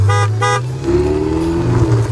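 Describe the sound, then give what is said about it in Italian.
Ferrari car: two short, bright horn toots open, then a steady engine drone hums on underneath without any talk. “Ti sposti? Ma cosa fai, il Cammino di Santiago in Ferrari?”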